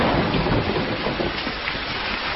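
Heavy rain pours steadily on a jungle during a thunderstorm at night, a dense, constant hiss with a low rumble beneath it and no voices.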